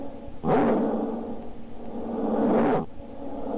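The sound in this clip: Dog barking played back from a soundboard: one rough, mid-pitched burst of barking that runs for a little over two seconds, fluctuating in loudness, with no talking around it.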